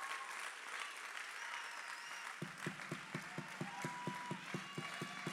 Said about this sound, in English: I wish somebody clap your hands like you mean it right now.